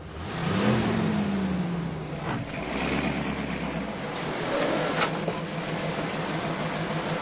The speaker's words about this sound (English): What's that truck doing out there?